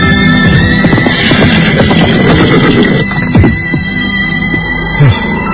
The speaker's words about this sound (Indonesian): Nyaman sekali berkuda di pagi yang cerah ini.